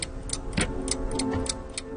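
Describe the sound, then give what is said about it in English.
Mechanical gears of a tower-like wooden clock tick in a steady, even rhythm, about four crisp ticks per second, set against a dense, continuous background wash. “I'm standing in front of a tower-like wooden clock. Its mechanical gears control 6 screens”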